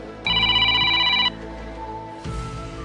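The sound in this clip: A telephone rings during an outgoing call to a streaming provider. One loud, steady electronic ring tone lasts about a second, followed by quieter low noise and a soft thump.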